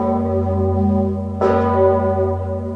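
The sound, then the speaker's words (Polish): Deep toll of the great bell of Wawel Cathedral in Kraków, rung on the death of a pope: a low, humming drone with a single fresh clang that blooms and rings on, loud and alone. “Zygmunt rozbrzmiewał dla papieża Franciszka również w dniu wyboru po konklawę”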